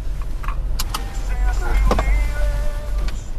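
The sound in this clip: Inside a car being driven to a family's new home in Park Merced, a steady low road rumble fills the cabin, with scattered small clicks and faint voices.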